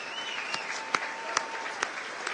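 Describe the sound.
Audience applause at a political campaign event, a steady dense wash of clapping with a few sharper individual claps standing out.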